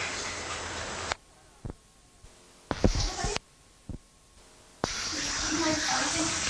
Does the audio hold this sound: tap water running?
yes

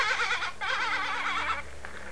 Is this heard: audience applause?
no

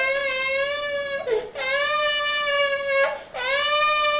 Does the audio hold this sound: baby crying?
yes

